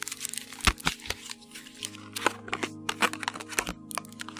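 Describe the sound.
Tarot cards being shuffled before one is drawn: a few crisp flicks and snapping riffles, irregular and fairly faint, over a low steady hum.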